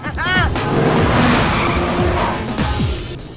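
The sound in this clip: Car swerving to the roadside with tires skidding and squealing over a loud engine, swelling then easing off, with a voice speaking over it.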